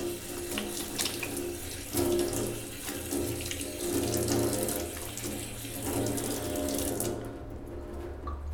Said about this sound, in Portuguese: Eu precisava lavar a mão, será? Lavar aqui só pra garantir, né?